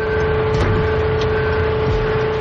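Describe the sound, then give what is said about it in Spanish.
A truck engine held revving by a brick wedged on the accelerator in a crime drama, a constant, even mechanical drone with a steady hum and no clear rise or fall. “Un hombre cierra el remolque con un candado. El otro pone un ladrillo en el acelerador.”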